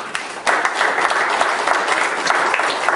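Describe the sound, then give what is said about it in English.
Applause from a church audience breaks out suddenly after a brief quieter moment, then holds as a loud, dense, continuous wash of clapping with no voices on top. “Give the Lord a hand of”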